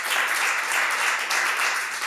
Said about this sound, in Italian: vorrei fare un applauso per il grande Pino.